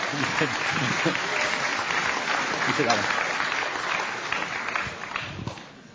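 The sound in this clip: An audience applauds to welcome two speakers onto a stage at a debate event, dense steady clapping with some voices mixed in, thinning slightly at the end.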